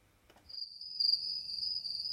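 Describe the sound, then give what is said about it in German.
On a summer evening in the Allgäu, a cricket chirps in a thin, piercing, high trill that sets in after a faint rustle and then holds steady. A soft, low murmur runs underneath. “Ja, das finde ich wunderschön, besonders wenn man am Abend dann da draußen sitzen kann und sich die Grillen einfach mal so anhört.”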